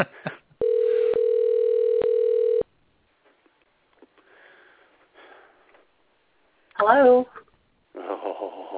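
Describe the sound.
A steady telephone dial tone sounds for about two seconds with a couple of faint clicks, then quiet clicks and rustles follow, and brief voices are heard near the end.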